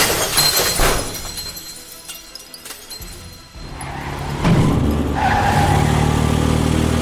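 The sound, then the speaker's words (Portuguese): A body is hurled violently into a parked van in a car park. The sound is a loud, noisy crash with glass-like shattering, then a brief dip and a heavy rumbling impact that stays loud to the end. “fazendo com que ele saia pela tangente do giro e acerte com violência uma van no estacionamento”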